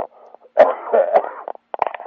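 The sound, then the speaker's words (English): Someone coughs and splutters in a few rough, throaty bursts, with short choppy sounds near the end. “I'm spluttering and coughing”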